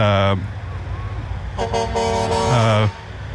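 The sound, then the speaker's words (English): Truck horns honk as the first trucks lead off a parade down a street: a brief blast, then a long, loud sustained horn with layered tones over a steady rumble of engines. “you're going to hear a few truck horns”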